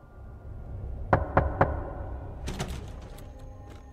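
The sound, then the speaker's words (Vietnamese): Three sharp knocks on a door in quick, evenly spaced succession, loud and crisp against a quiet, low background, with softer scattered noises following. “Đúng thật là tiếng gõ cửa, không sai, đúng là tiếng gõ cửa.”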